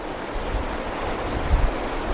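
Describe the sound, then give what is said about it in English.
Atlantic surf rolls in on a windy winter day on the Maine coast, a steady, broad roar of breaking waves mixed with gusty wind buffeting the microphone. “They're outside on this windy winter day, checking out the surf and reveling in their good fortune.”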